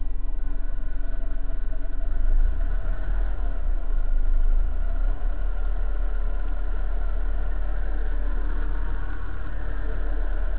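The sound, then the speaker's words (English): Whirring from a car's clutch throwout bearing as the clutch pedal is pressed, over the steady drone of an idling engine. The hum and whir hold fairly even throughout with a low rumble underneath. “as I press down on the clutch, you'll start hearing a whirring sound, and that's the throwout bearing. I'm mashing in the clutch now.”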